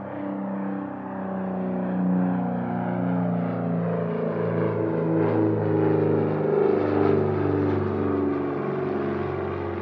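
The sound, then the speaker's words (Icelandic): Small airplane engine droning in flight, a steady low, harmonic hum that holds evenly throughout with slight swells, heard alone. “Lítil flugvél flög einmanalega leið í kolsvarta myrkri. Hljóðið í vélinni var eina sem heyrðist.”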